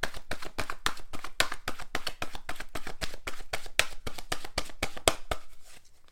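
Oracle cards being shuffled before one is drawn, a rapid stream of crisp, papery flicks at a fairly regular rhythm that softens toward the end.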